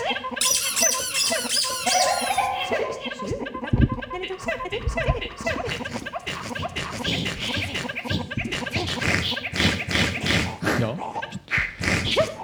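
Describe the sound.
Many high squeaks from a squeezed toy crocodile with sharp teeth, squealing over and over in a dense, busy mix of other sounds with no pause.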